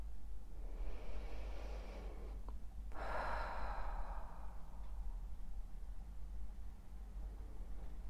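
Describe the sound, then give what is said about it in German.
Slow, conscious breathing during a seated mindfulness exercise: one or two soft, airy breaths, faint and unhurried, over a steady low hum, with no voices. “Noch ein paar bewusste Atemzüge.”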